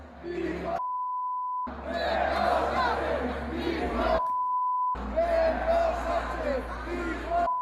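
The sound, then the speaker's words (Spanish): A loud stadium crowd chants against the prime minister at a sports event, a dense roar of massed voices cut twice by a steady, pitched beep tone. “Y lo que viene siendo habitual en este tipo de actos deportivos, actos de aglomeración, es que de nuevo se volvieron a repetir cánticos contra Pedro Sánchez.”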